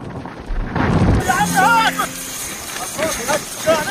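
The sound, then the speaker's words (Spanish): A dull, low rumbling blast from an Israeli attack on Gaza bursts out near the start, and people's voices follow over it. “Es el sonido de uno de los últimos ataques israelíes sobre Gaza.”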